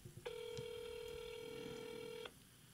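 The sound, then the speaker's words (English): A single long, steady ringback tone of an outgoing telephone call holds evenly for about two seconds. It is quiet and alone, with no voices. “I'm going to call her.”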